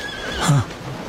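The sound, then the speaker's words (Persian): A horse neighs once in a short, bright whinny that peaks quickly and fades within about a second, with no other sounds around it. “اسب.”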